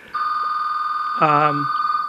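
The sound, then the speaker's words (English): A telephone rings with a steady, high electronic tone that holds without a break, while a voice briefly speaks over it partway through. “I have a phone ringing, but I don't believe that's... I'm wondering if that's my toll-free line.”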